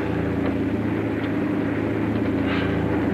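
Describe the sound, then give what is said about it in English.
A steady, loud airplane engine drone with a low hum, heard from the cockpit as the plane cruises at night above moonlit clouds, unbroken throughout. “He peers ahead with a serene smile as the plane floats above the moonlit clouds.”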